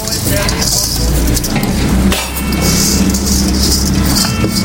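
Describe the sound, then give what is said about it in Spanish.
Rice being added to a hot cooking pot gives loud, steady sizzling and frying that continues throughout. Clinks from metal utensils and pans break in now and then. “Vamos a agregar el arroz, o soltar.”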